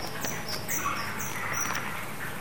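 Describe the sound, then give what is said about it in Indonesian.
A bird chirps in a coconut tree with faint, short, high chirps that come a few times over a steady hiss. “Bunyi apa itu? Burung. Kok ada burung di dalam? Kan ada burung nih di pohon kelapa.”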